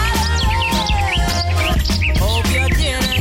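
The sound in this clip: Bright bird chirps and tweets layered over a loud pop song, the birdsong flickering continuously above the music's steady beat and melody.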